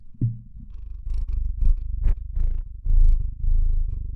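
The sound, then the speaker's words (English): A cat purring while sitting on someone's lap, a low, rhythmic purr in many short pulses with brief gaps for breath, heard alone without talk. “I'm not sure if on the record you can hear my cat currently, who's sitting on my lap purring”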